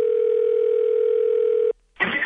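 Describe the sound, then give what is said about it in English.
A telephone dial tone plays while a call is being placed: a steady, unbroken hum for under two seconds that cuts off abruptly and is followed by a short burst of noise. “Let's get Andy on the phone. All right. Well, hang on. She's available. Hang on. Okay, let's try her.”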